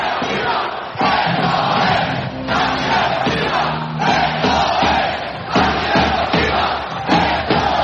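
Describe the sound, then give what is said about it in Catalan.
Basketball crowd at a Baxi Manresa game shouting in protest over a foul they consider unsportsmanlike. Loud, surging vocal noise rises and falls in waves, with brief moments of unison chanting. “Ara el públic que crida esto és antideportiva.”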